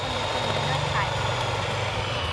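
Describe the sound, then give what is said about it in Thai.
Eggs beaten until white and foamy give off a steady whirring, droning hum, with people talking over it throughout. “ตีให้ขึ้นฟูขาวเลยลูกตีลงไปที่ไข่เลยลูก”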